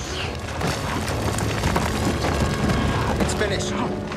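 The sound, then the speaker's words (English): A heavy rumbling blast as a phaser shot explodes on a sheer mountain path, followed by falling rocks. Dense, continuous roaring noise fills the whole stretch without clear breaks. “As he pushes her, a phaser blast explodes in front of them, blocking the path with falling rocks.”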